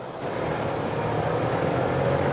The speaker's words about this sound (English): The car speeds towards them. They stand in the middle of the road and stare as it draws closer.